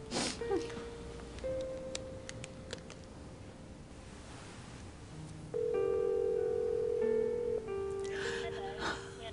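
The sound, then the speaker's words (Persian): A phone call rings out and goes to voicemail: a sequence of electronic telephone tones and short beeps, then a louder sustained tone lasting about two seconds, over faint line hiss. “رفت روی پیغام گیر.”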